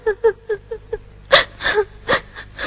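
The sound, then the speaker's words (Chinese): A woman crying in a Chinese qu opera scene: five short gasping sobs come first, followed by louder, longer whimpering wails. “只问了一句，可就哭起来了。”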